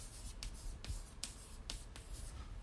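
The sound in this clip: Handwriting strokes scratch across a writing surface in a series of brief, dry, rasping bursts, evenly spaced and fairly faint over a low steady hum, with no talking.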